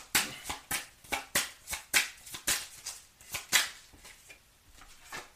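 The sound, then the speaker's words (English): Tarot cards being handled as one is drawn from the deck, heard as many regular papery swishes and flicks in an even rhythm that gradually soften toward the end, with no talk. “I want to take one more card.”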